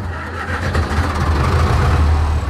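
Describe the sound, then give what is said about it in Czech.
A historic 1962 tractor, a classic 40 model shown at a vintage tractor exhibition, runs with its engine started. It makes a loud, steady, low chugging rumble that holds throughout, with no talk. “To je zvuk klasické 40. Jak starý tenhle ten traktor vlastně je? 62, rok výroby 62.”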